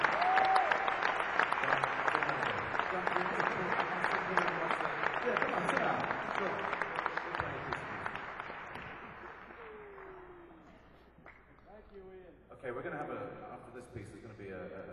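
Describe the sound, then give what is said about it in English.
An audience applauds at a concert. The dense, loud clapping lasts for several seconds and then thins and fades, and a voice speaks near the end. “Give him a big round of applause. Yeah, well, give him a big round of applause.”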